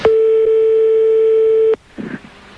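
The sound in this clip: A telephone busy signal heard while placing a call: one steady, loud electronic tone holding a single pitch for under two seconds, then cutting off abruptly into faint rustling.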